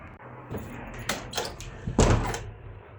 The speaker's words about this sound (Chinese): 门关上。